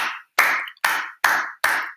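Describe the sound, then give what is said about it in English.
Hand claps mark the rhythm of ground contacts in a sprint. Each sharp, evenly spaced clap rings briefly, followed by short silences, in a steady pulse. “we think about this clap being the ground contact, and it's going to start slow”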